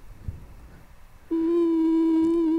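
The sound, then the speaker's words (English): A telephone dial tone switches on abruptly midway through and holds at a steady, loud, even pitch to the end, after a stretch of faint low background noise. “I was wondering what that noise was. That was a dial tone.”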